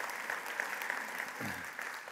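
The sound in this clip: Applause from the audience at an annual Father's Day church service, welcoming a pastor: steady, dense clapping that holds at an even level throughout, with no voices over it.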